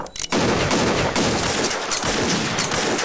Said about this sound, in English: The regulators fire into the wooden walls of the small shed-like toilet.